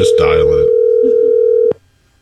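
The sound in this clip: A telephone dial tone plays as a steady single-pitched hum for under two seconds, then cuts off abruptly. Voices briefly overlap it at the start.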